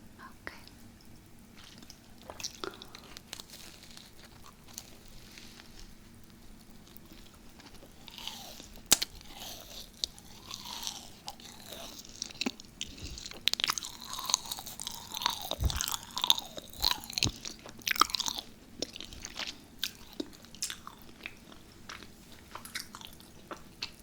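Biting into and chewing a sweet macaron up close, with crisp crunches followed by many soft, moist chewing and mouth sounds that grow busier toward the middle before easing off.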